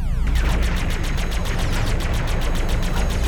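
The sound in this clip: Gunfire in an animated Green Lantern show: many rapid, evenly spaced shots rattle off in a steady stream, led in by a short descending zap at the start, loud and continuous throughout.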